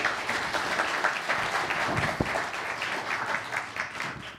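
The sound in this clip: Audience applause welcoming a visiting pastor to speak: dense, steady clapping that continues throughout and eases slightly toward the end.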